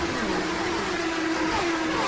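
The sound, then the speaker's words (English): Steady roar of IndyCar race cars engines as the field takes the green flag at the start of the 79th Indianapolis 500, a loud, continuous mid-pitched drone with a sustained tone that holds level throughout. “Here they come. The green flag is out, and the 79th Indianapolis 500 is underway.”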